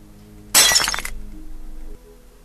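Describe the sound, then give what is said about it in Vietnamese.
Glass cup kicked and shattered: one sudden loud crash with bright, scattering fragment sounds for about half a second, then a fading tail and quiet. “Nam thì lấy chân đạp vỡ cái cốc”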